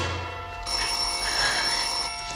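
Telephone ringing in a 1958 crime drama scene: a steady, bright electric ring that continues without a break, with no voices over it.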